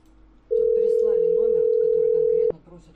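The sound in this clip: A telephone dial tone sounds while a number is redialled: a loud, steady, unwavering tone that starts abruptly, holds for about two seconds and cuts off sharply, with faint voices underneath.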